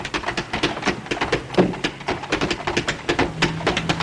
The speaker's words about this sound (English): taps his feet on the floor